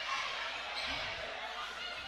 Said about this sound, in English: now dribbles to the left elbow, now goes down towards the corner.